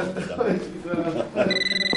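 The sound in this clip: A telephone rings while a voice speaks over it, and a bright electronic ringtone of repeated high tones rises clearly near the end.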